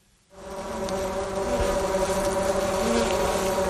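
Honey bees kept in a town buzz in a dense, steady drone. The sound rises in within the first half second, then holds evenly loud with a constant, humming texture.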